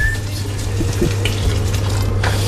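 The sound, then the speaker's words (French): Hot water poured into a cooking pot of tomatoes and garlic: a steady, fairly loud splashing pour that runs throughout, with a low hum beneath it. “je vais juste remettre un peu d'eau chaude, ça couvre un peu mieux.”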